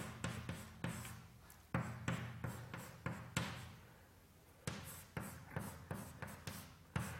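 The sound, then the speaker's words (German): Quick, faint taps and scratches of an equation, the Schrödinger equation, being written out during a physics lecture, coming in many short clustered bursts separated by a quiet pause. “Schreib sie nochmal hin.”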